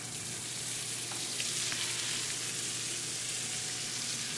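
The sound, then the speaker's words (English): Calamari sizzling in a pan of olive oil with chopped garlic and chili flakes; a faint, steady, crackling fry that continues evenly throughout, with no talking. “Then I'm going to go ahead and add my garlic that I chopped up. I'm going to add my chili flakes to it, and that's up to you. If you don't want to use chili flakes, that's absolutely fine. Then I'm going to add my calamari.”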